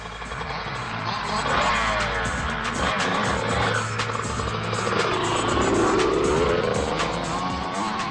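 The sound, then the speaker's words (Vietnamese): Four cars roar off at speed into the night: loud, continuous engine revving with tire squeal, a dense roar that holds for the whole stretch. “rồi sau đó là tiếng rú của cả bốn chiếc xe lao phóng vào đêm tối.”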